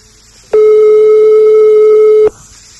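A telephone ringback tone sounds during a call: one loud, steady, buzzing tone about two seconds long, starting and stopping abruptly, with near silence before and after.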